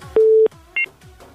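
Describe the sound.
Telephone tones as a call is placed: one long, steady low beep, a short pause, then a brief higher two-note blip, each standing out clearly over faint background hiss.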